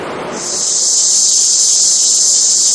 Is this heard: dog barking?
no